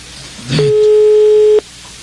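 A telephone call tone sounds as a number is dialled on a phone line. One loud, steady, mid-pitched beep holds for about a second and then cuts off abruptly.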